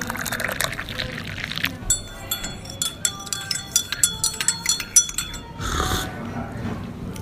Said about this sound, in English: As you can hear from that jingle, that was me enjoying some afternoon tea.